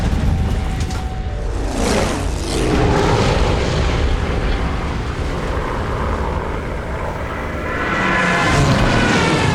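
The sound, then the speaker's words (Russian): Heavy explosions rumble amid the drone of aircraft during a massive bombing raid on a fortress, a loud, continuous low roar with deep booms swelling and fading. “Повсюду раздаются взрывы. Идет массированная бомбежка.”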